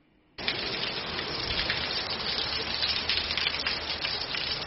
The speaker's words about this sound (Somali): Roobabkan ayaa 12 saac ee lasoo dhaafay waxa ay ka da-ayeen guud ahaanba gobollada Bari, Karkaar, Gardafu iyo Sanaag